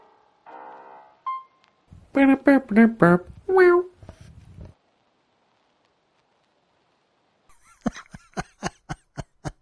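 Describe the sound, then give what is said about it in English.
A cat meowing on the floor underfoot: a few short, tonal, rising-and-falling meows in quick succession, fairly clear against silence, followed later by a run of short, sharp taps. “And that's not the squeaky part of the floor. That's a cat.”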